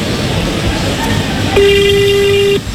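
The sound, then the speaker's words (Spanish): A telephone ringing tone sounds during a call: one steady, mid-pitched tone of about a second starts partway through and cuts off abruptly, over a constant background hiss. “Llamo Margarita, conteste. Llamo Margarita.”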